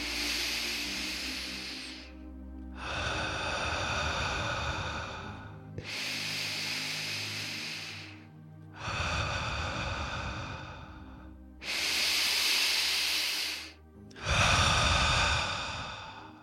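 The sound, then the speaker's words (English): Deep, slow breathing: three full cycles of air drawn in through the nose and pushed back out, each inhale and exhale a long, airy rush of a few seconds, with brief pauses between. “Inhale through your nose for three, exhale for three. Let's do it three times.”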